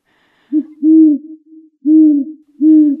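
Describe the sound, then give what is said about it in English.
Great horned owl hooting in the Homer area of the Kenai Peninsula: a deep, low series of soft hoots, a short note followed by longer, steady ones in an even rhythm, alone against silence. “That is the call of the great horned owl, the most often heard owl in our area.”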